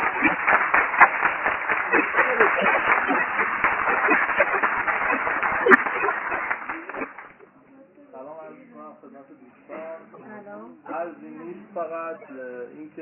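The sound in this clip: Audience applause, a dense and steady burst of clapping that lasts about seven seconds, then stops as a voice begins speaking.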